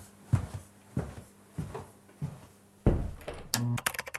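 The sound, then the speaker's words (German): Several dull, clunky clicks of a button being pressed to start a recording, spaced at fairly even intervals and ending in a quicker, busier clatter of handling sounds. “Ja, drück hier auf den Knopf und dann kriegen wir das schon irgendwie hin.”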